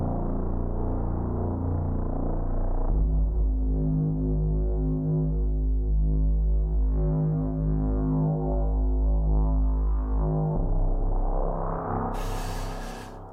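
A sustained low droning tone processed with an autofilter and reverb. Its layered harmonics slowly swell and fade as the filter sweeps, and a short hiss burst appears near the end.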